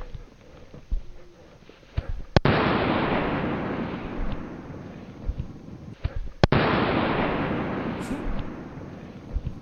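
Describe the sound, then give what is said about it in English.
A real firework goes off twice: two sharp bangs, each followed by a long, loud, crackling hiss that slowly dies away. “He's gonna get a real firework.”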